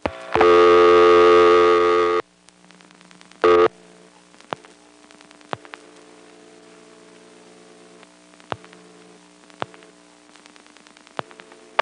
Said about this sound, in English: The equipment will pick up the trunk, dial 229, and then wait for the last digit. But eventually, the register will drop. And then I'll dial the last digit 0 directly into the trunk.